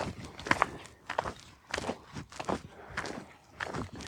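Footsteps on a hiking trail near the Sooßer Lindkogel, where the path rises and falls gently: a steady, unhurried series of soft crunching steps, evenly spaced and fairly faint, with no talk.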